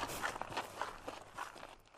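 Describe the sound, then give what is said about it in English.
Faint footsteps of people walking outdoors near woodland, a steady series of soft, scuffing steps that carries on throughout without talk. “So we're going to walk on to Tor Cross and have a look at this tank.”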